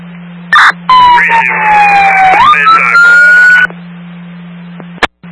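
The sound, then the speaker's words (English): A fire engine siren wails loudly with a continuous sweeping tone for a few seconds as the engine responds, then cuts off, with short sharp clicks before and after. “your sirens are getting louder right now”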